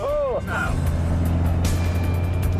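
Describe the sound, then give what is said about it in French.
A rear-wheel-drive Cosworth car drives on a track, its engine giving a low, steady drone with a constant deep harmonic. It stays loud and continuous throughout. “Avec toute la puissance envoyée directement en roue arrière, cette Cosworth d'origine n'est pas des plus faciles à dompter.”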